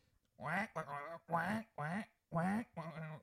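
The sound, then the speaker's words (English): A duck-call quacking ringtone plays on a phone: six loud, raspy, nasal quacks in quick, steady succession, with no talking over them. “quack. That's the duck hunter ringtone for all of you non-hunters out there.”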